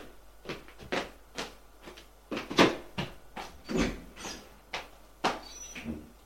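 A door as someone leaves a bedroom: an irregular string of many sharp clicks, knocks and clunks, moderately loud, with no talk.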